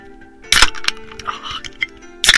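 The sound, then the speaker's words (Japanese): Beer cans popping open, each with a sharp crack and burst of hiss: two strong bursts with a short click between them, over a low steady hum. “この4つのビールの中で、まあどれが好きとかちょっと教えてもらえればまた嬉しいかななんて思います。というわけで早速ちょっと開けていきます。”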